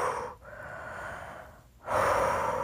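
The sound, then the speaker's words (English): Audible breathing during a calming exercise: three slow, airy breaths in a row, the last one the loudest and fullest, with no talking. “Keep breathing through it. Keep breathing through it.”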